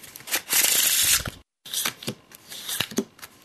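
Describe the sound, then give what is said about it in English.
A deck of playing cards is shuffled for a game of euchre. There are two bursts of crisp riffling, separated by a brief pause, and then lighter flicks of the cards. “Get a group of Michiganders together and a deck of cards. Add that, mix it all up, and chances are pretty good you're going to wind up with a game of euchre.”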